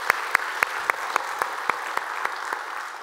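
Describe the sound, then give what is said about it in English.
Applause from a church audience at the North Garnett Wood campus welcoming another campus: steady, even clapping with a fairly regular rhythm, sustained throughout. “So if you guys here at North Garnett Wood, would you put your hands together and welcome them into our time of study here today?”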